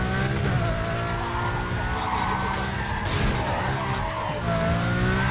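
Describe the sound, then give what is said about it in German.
Loud engine roar and squealing, skidding tires from a car in a racing video game on a city track, with nitro boost and burning red tires, one dense, steady wall of sound throughout. “Das ist Nitro. Ah ja, jetzt sieht man rot brennende Reifen hier und der Nitro ist schon.”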